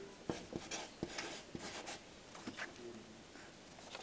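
Synonyms being written by hand with a pen: faint scratching strokes on paper with a few sharper taps early on, then softer continuous scribbling, quiet and without talk.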